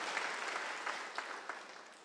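A church audience claps hands in praise during a Sunday sermon, a soft, steady spread of applause with a few sharper claps standing out as it slowly fades.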